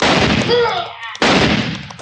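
Rifle shots in an Old West cattle-drive radio drama set around Tombstone, 1958: a few sharp, loud cracks with short decaying tails, spaced about a second apart.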